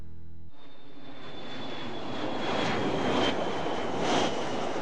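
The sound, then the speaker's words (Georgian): An airplane engine roars overhead. A brief low hum gives way to a loud, steady roar that swells slightly, with a thin high whine running above it. “თვითმფრინავი ფრინდება?”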